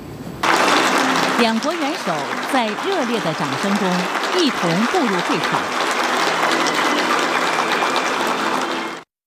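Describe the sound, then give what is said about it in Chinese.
Warm, sustained applause fills the Great Hall of the People in Beijing as the Chinese and Russian heads of state enter the opening ceremony of a China–Russia education year, steady throughout with a voice speaking over it. “两国元首在热烈的掌声中一同步入会场。”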